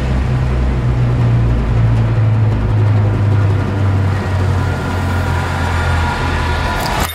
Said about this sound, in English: That was the trailer for the film 1917, which we were releasing on December 25th, Christmas Day.